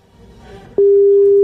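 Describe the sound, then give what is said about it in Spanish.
A telephone tone sounds while a call is being placed. After a quiet start, a steady single-pitch tone begins abruptly and holds unchanged to the end. “Vamos a llamar. Estamos llamando.”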